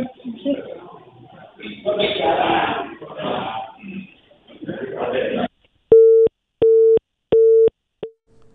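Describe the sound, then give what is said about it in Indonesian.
A telephone busy tone sounds when a phone connection to a reporter fails. After several seconds of talk, three steady mid-pitched beeps follow in an even rhythm, and a fourth is cut short. “kami mohon maaf mendengar sambungan telepon bersama dengan reporter Zahrotin Aljana mengalami kendala”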